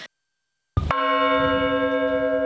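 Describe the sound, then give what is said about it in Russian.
A church bell rung for Easter in Russia strikes once, loud and sudden after a brief silence, then rings on as a steady, sustained metallic hum of layered tones. “В этот день по всей России звонят колокола”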